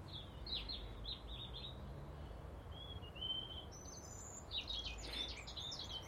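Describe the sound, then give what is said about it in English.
Small birds chirp outdoors in faint, high, short bursts, a few scattered calls over a low, steady background hiss. “And a wee birdie. Two wee birdies. Maybe three.”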